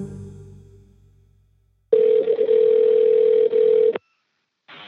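A telephone rings for an incoming call with a steady electronic tone that lasts about two seconds, stops, and starts again just before the end. No voices are heard over it.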